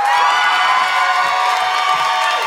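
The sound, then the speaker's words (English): An audience at a comedy show claps and cheers as a comedian is welcomed onto the stage: loud, sustained, unbroken cheering and applause with shouts and whoops. “Put your hands together for the incredible Bianca Del Rio.”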